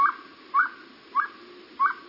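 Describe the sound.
Owl calling, a hungry, dehydrated bird: four short whistled notes repeated at an even pace, fairly faint over a soft background hiss.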